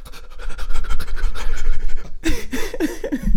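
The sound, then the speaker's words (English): Quick panting breaths from a person: a fast run of many short, loud, huffing puffs with a breathy rasp, turning more voiced and growly toward the end. “do you want to take a deep breath in and out before we move on? No, I want to breathe quickly.”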